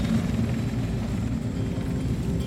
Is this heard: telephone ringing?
no